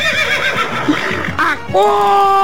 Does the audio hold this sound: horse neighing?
yes